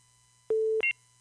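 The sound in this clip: A call-waiting beep sounds on a phone line: one steady mid-pitched tone, then a brief, higher double-pitched tone right after it, over a faint, constant line hum.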